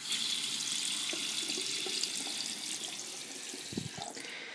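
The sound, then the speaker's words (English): Water runs from a bathroom sink tap in a steady, even hiss. The flow is moderately loud and unbroken from start to finish, with no voices. “whatchamacallit, I'm missing the word, the bathtub. Here is the sink and the bathroom.”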